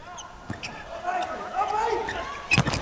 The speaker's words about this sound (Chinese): 西川新太郎的发球，